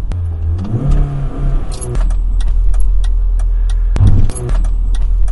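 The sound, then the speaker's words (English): A car's turn signal indicator ticking in a steady, quick rhythm while driving on a rainy day, faint clicks over the low rumble of the engine and road noise. “And there were turn indicators”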